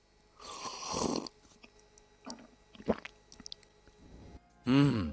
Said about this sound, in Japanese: おお、さっと溶けていきますね。いや、綺麗な緑色です。ではいただいてみましょう。